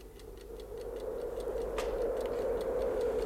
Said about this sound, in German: Ich stellte den Wecker auf eine Kabelrolle.